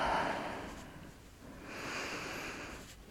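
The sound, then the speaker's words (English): Soft, slow breathing: a couple of long, airy breaths swell and fade gently, very quiet throughout. “Just lay here with me. Listen to our breath”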